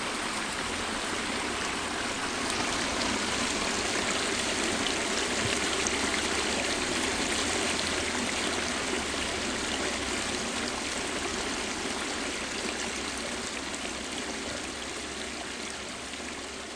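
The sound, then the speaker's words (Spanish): A stream flows through a snowy forest after a night of heavy snowfall, giving a steady, continuous rushing and gurgling of water that holds the same level throughout, alone and without voices. “llevados por las voces del arroyo grabado por Mariano”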